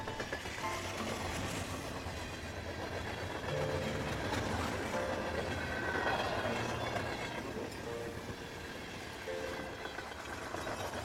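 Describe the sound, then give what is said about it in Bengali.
A mail or express train rattles across a rail bridge, a continuous loud rumble and clatter with metallic ringing layered over it, holding steady without a pause. “দূরে তখন rail ব্রিজের ওপর ছুটে চলেছে কোনো mail বা express ঝমঝম শব্দে”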